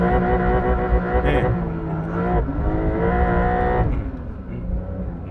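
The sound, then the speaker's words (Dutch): Car engine bouncing repeatedly off the rev limiter on a racetrack while the transmission shifts automatically, a loud, sustained, buzzing engine note with rapid stuttering cuts and brief dips in pitch. “Want ik was niet handmatig aan het schakelen, maar ik bleef even zeg maar, in die toerenbegrenzer even hakken.”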